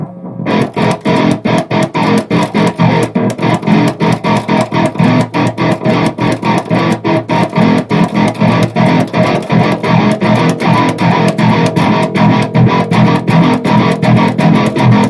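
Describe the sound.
Distorted electric guitar switched on and off by a kill switch, producing a loud, fast, steady stutter of many rhythmic cuts with no talk.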